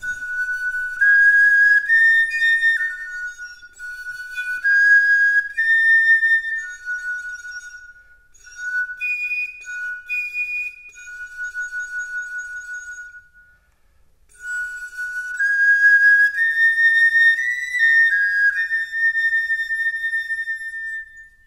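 Reconstructed Ice Age flutes, modeled on excavated instruments about 50,000 years old, play breathy, high, pure whistling tones in short melodic phrases with gliding notes, broken by brief pauses.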